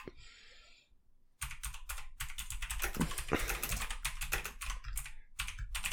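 Typing a search on a computer keyboard: a quiet opening gives way to rapid, irregular clusters of crisp keystrokes that continue steadily to the end.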